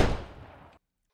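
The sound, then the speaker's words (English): A single gunshot gives a sharp, loud crack followed by a rumbling tail that fades for most of a second before cutting off abruptly into silence. “You've shot. You've killed me.”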